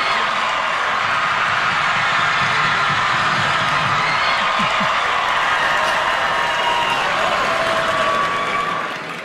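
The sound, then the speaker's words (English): A late-night TV studio audience breaks into sustained applause and cheering, a dense, steady roar of clapping that holds loud throughout before tailing off at the very end. “The first thing you'll hear is the audience reaction.”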